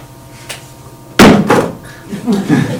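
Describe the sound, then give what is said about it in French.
A finger snap ends a hypnosis session: one sharp, loud crack stands out from a quiet background, followed by a few softer bursts. “Attention, quand je vais claquer des doigts, vous allez sortir de l'hypnose.”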